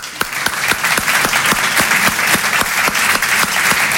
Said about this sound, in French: Applaudissez les hétérosexuels.